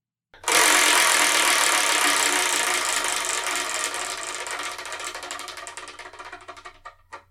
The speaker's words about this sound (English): So I'm going to spin the Wheel of Manga, whatever number it lands on, that's reviewing the next episode of the Spark and Manga Review.